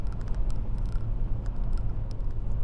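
Interior noise of a car being driven: a steady low road rumble with a faint hiss and scattered light ticks, no talking.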